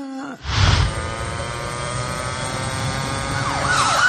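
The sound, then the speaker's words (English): A police siren sounds loudly after a brief quiet moment, holding a steady piercing tone for several seconds and breaking into a wavering wail toward the end. “That's the sound of the police.”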